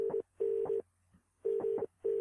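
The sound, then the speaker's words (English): A telephone line tone sounds as a steady, mid-pitched hum cut into repeated paired bursts separated by short silences, with nothing else heard. “So we've got the dialing tone there.”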